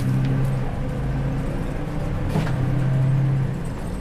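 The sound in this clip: A truck driving around a depot gives a steady, continuous low engine drone with a rumbling undertone, holding an even level throughout without clear revving.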